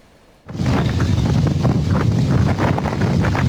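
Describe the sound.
Strong wind gusting over Küçükçekmece Lake in Istanbul, wind strong enough to capsize a small boat, bursting in abruptly as a loud, rough roar of buffeting against the microphone that stays constant.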